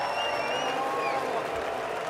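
A festival audience at the Rudolstadt-Festival sings its lowest possible note together, making a dense, sustained crowd drone with faint wavering tonal streaks at a steady volume throughout.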